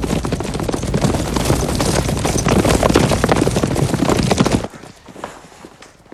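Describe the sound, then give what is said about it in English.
Hooves of about a dozen horses as officers ride into a courtyard, a loud, dense clatter of many overlapping hoofbeats that runs steadily, then stops abruptly and leaves only faint noise. “The officers, about a dozen of them, ride into the courtyard.”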